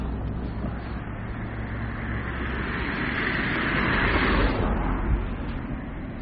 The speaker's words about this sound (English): As you can tell, traffic is picking up.